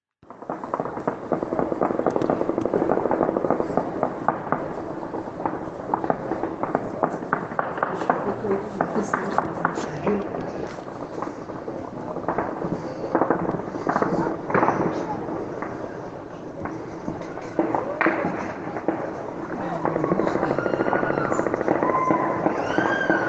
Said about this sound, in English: Firing, live firing at the Taliban.